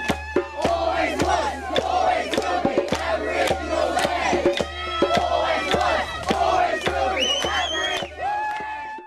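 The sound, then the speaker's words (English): Protest crowd at a land-rights protection embassy celebrating as police retreat, many voices shouting and cheering together over a run of sharp, regular claps or beats. “the clip we've just heard was a celebration as police retreated after fierce”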